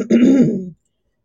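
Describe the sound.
A single loud, throaty rasp as a man clears phlegm from his throat, lasting just over half a second and cutting off abruptly into silence.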